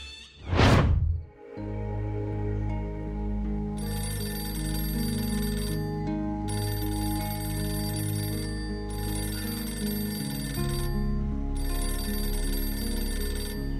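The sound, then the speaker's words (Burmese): An office desk telephone rings continuously in repeated long bright bursts over a steady tonal background, with no talk. “ရုံးစပွဲပေါ်ကတယ်လီဖုန်းဟာအဆက်မပြတ်မိနေပါတယ်။”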